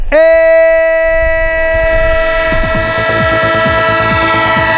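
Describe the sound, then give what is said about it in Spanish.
Train sound effect used as a jingle for a football radio segment: a loud, sustained, horn-like harmonic tone holds throughout, and rapid rhythmic clattering like wheels over rail joints joins about halfway through. No voices. “el tren de Radio Estadio, el tren de Onda Cero, el tren del fútbol”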